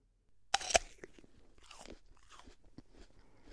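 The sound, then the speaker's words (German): Someone biting into an apple: one sharp, loud crunch, then a run of quieter crunching chews. “da beißt jemand in den Apfel. Und wenn man in einen Apfel beißt, dann, dann arbeiten sie unsere stärksten Muskeln, unsere Kaumuskeln.”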